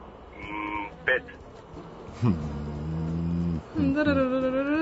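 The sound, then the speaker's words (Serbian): Buzzing bee sound effect played during a quiz question: a few buzzy drones of shifting pitch, some long and sustained, with short louder bursts between them. “tu su pčelice i zujenje da vas malo zbune”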